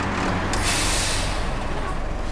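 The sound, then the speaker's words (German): A truck pulling up and stopping beside a petrol station, its engine rumbling low while a loud hissing burst of air brakes breaks in and sustains over the idling drone. “Neben uns hält ein LKW.”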